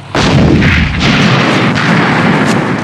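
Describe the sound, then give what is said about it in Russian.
Heavy cannon fire in a battle between a field gun and a tank: a few deep, booming blasts follow one another in quick succession, loud and alone with no voices. “Пушка выстрелила на секунду раньше танка.”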